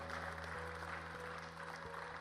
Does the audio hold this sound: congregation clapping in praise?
yes